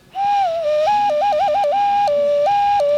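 A clear ocarina-like whistle is blown through a small hole, flipping quickly between two steady pitches in short trills and then holding longer notes, loud and alone.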